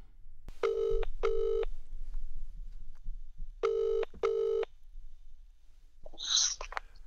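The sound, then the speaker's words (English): A phone call being placed after dialling a number, the line answering with two pairs of short buzzing ring tones separated by a long pause, over a low hum, ending with a brief noisy burst. “Let me see if I can dial this number.”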